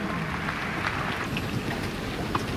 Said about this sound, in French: Sous les rafales du châtrier. Elle reste agacée par ce vent, hein, malgré le score.